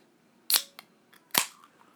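A can of Spear beer cracked open: two sharp, bright pops with brief hissing tails, separated by a faint small click, with no voices.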